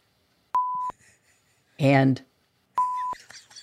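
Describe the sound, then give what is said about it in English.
Two steady, high-pitched censor bleeps, each lasting about a third of a second, cover swear words of the kind cut from television, with a brief burst of speech between them and a little speech after the second. “the 7 words you can never say on television without getting beeped are”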